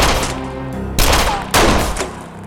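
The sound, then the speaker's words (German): Gunshots exchanged in the dark: a few loud, sharp blasts, each followed by a heavy, rumbling tail that overlaps the next, so the firing sounds dense and chaotic. “Es war dunkel und wir schossen beide vorbei.”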